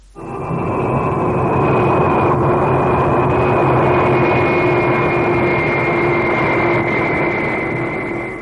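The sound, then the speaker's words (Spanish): Steady jet-engine roar from a huge New York–Paris airliner that has just landed and is taxiing along the runway. A high whistling whine sits over a broad low rumble, holding loud and even throughout. “El jet del servicio Nueva York-París acaba de aterrizar. Hermoso, seguro, perfecto. El inmenso avión carretea por la pista,”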